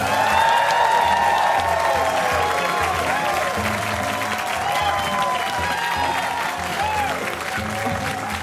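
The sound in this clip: Applause from a full live audience at the WBUR CitySpace public events venue in Boston, Massachusetts. The clapping is thick and sustained, with crowd noise under it and a voice speaking over the top.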